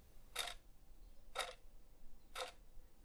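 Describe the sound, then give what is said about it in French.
A clock hand ticks three times, each tick dry and short, evenly spaced about a second apart and faint over a quiet background. “Parfois l'aiguille est bien rigide, donnant un son sec et court. Parfois, elle semble trembler, comme si elle hésitait entre deux temps,”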